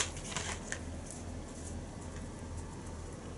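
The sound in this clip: Faint papery shuffling and soft clicks as a stack of about a hundred women's pro wrestling cards, waiting for autographs, is handled and riffled, loudest at the start, then a quiet steady rustle.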